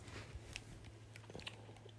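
Faint crunching and chewing of berry-flavoured throat lozenge drops: a few soft clicks and bites scattered over the span, with no talk.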